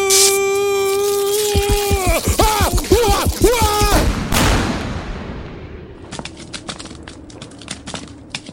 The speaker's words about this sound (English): Holy shit, he exploded!